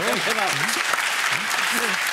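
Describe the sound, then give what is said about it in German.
Audience applause for guests on a German show. Steady, loud clapping runs the whole way through, with a voice talking over it at the start and again near the end. “Guck mal, der Applaus spricht für sich.”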